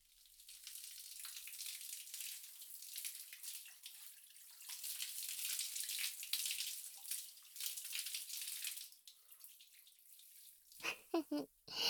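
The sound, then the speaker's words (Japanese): Water rinses hair in a continuous hissing splash that swells and eases in strength, ending with a few short, louder bursts. “とりあえずそのまま頭洗い流しちゃって。”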